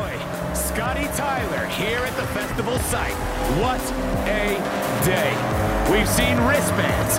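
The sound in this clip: A V8 engine in a production-ready prototype car runs with revs sweeping up and down in several pulls, while a man's voice talks over the engine throughout.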